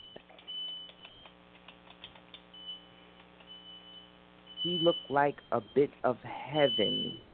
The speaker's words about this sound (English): That's not an alarm going off, is it? Yes, it is. It's an alarm.